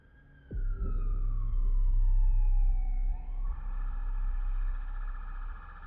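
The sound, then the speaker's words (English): A loud emergency vehicle siren sounds as responders arrive at a crash reported by a snowplow driver. The wailing tone slides steadily downward, then jumps back up, over a deep low rumble. “Emergency responders have just arrived to save Charlie. A snowplow driver found the crash and called for help.”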